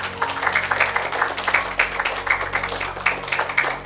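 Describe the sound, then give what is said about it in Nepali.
An audience claps at a talk, many hands producing dense, continuous applause with small regular surges in loudness. “तपाईँहरूले ताली ठोक्नु भयो नि”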